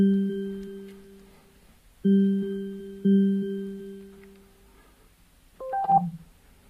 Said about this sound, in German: Anruf wird gestartet.